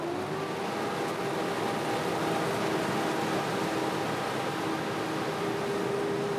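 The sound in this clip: A threshing machine on a test run, checked for oil leaking at its threshing drum, gives a steady, even mechanical drone with faint humming tones that hold throughout at constant loudness.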